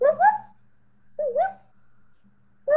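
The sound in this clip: A voice imitates the call of loud birds that nest in cholla cactus, giving three short, warbling calls separated by pauses, each a quick wavering rise and fall in pitch.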